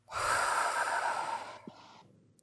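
One big breath during an emotional tapping session: a long, loud, airy breath lasting over a second that tapers into a softer breathy tail.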